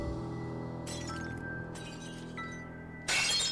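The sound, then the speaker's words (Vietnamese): Glass cups and saucers shattering: bright, crashing bursts of breaking glass, the last one loudest, over a steady low background. “Âm thanh tiếng ly tách đổ vỡ như là đâm vào tai, nghe đến rợn cả người.”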